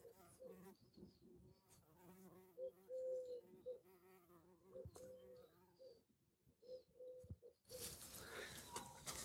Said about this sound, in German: Ich versuche dabei, mir die Hummeln aufzunehmen vom Klang.